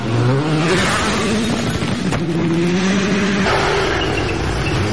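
Race car engine at full throttle in sixth gear through a corner: a loud, sustained high-revving drone with a steady harmonic tone that dips briefly near the middle before holding on.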